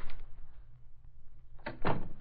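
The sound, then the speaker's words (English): Door being opened: faint handling and knocking noises, then a louder scraping, rattling burst near the end. “Well, it took you long enough to open the door.”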